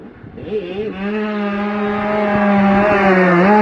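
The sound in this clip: A racing motorcycle pulling into the pits as the rider brakes hard on the front wheel, its engine a sustained buzzing drone that holds a fairly steady pitch and grows gradually louder.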